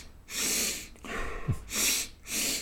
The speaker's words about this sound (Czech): člověk se snaží dýchat nosem, což je někdy těžký, a že má dva nádechy s přerušením a pak jeden delší výdech, takže by, když to předvedu